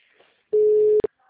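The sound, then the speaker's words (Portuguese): A telephone line tone plays as a call is placed: one steady, flat, mid-pitched beep of about half a second. It cuts off with a click and a brief blip, then near silence. “Fazer uma ligação aqui.”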